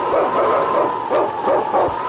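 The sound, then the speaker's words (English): A husky sled dog, the lead dog of a team in the Yukon, gives a few sharp barks and yips over a constant wash of background noise. “It's King, swiftest and strongest lead dog of the North Country”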